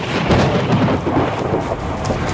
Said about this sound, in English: we're just going to shelter inside for a moment because the rain is coming down. You can probably hear the thunder in the background